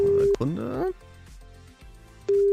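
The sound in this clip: Telephone ringing tone while a radio station calls a listener live on air: a steady single-pitched tone sounds briefly at the start and returns at the end, with music and a voice in between.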